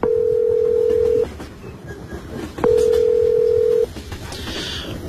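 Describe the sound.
Ringback tone of an outgoing call placed to a number found on a lost mobile phone: two long, steady, mid-pitched tones with a silent gap between them, over a constant background hiss.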